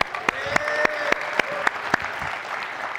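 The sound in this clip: Audience applause at a church gathering: a dense wash of clapping with seven sharp, evenly spaced louder beats across the first two seconds, then a softer continuing patter.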